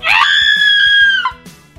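A loud, sustained high-pitched scream, part of a weekly group scream from open windows, holds steady for over a second, then breaks off and fades.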